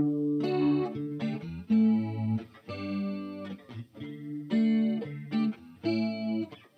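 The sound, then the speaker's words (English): Electric guitar played through an Old Blood Noise Endeavors Visitor pedal set to tremolo and chorus with phaser. Ringing chords come in repeated bursts, each with a wavering, shimmering modulation and pauses between phrases. “That was from our good friends over at Old Blood Noise Endeavors. Oh, I like those guys. That is their new visitor pedal.”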